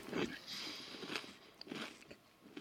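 Crisp biting and crunching of a pepper chocolate cracker, quiet crackly chews repeating in an irregular rhythm with a few sharper snaps, no talk over them.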